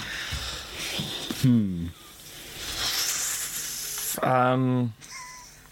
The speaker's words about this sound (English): That's a lot of intakes of breath.